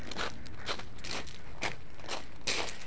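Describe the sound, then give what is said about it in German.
A person walks briskly. The footsteps are crisp and crunching, falling at a quick, regular pace and moderately loud over a faint steady hiss. “Wie ihr hört, gehe ich jetzt ganz enthusiastisch und intensiv. Anders kann man hier einfach nicht gehen.”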